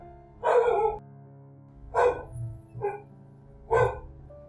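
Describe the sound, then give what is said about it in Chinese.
A household dog barks four times in short, irregular bursts, sharp and fairly loud against a quiet background, with no talking. “这是我家狗在叫、哦、不知道有没有录进去。它在听到不明的声音。我有时候录音它不会叫，有时候它会叫。”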